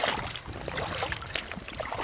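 Rushing, splashing water as a research biologist wades into a cold, swift-flowing river, a dense steady wash with a few louder sloshes.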